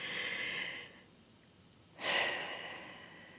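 A slow, deep breath, soft and airy: a long breathy hiss that cuts off, a short quiet gap, then a second, stronger breath that swells and gently tapers away, with no talking.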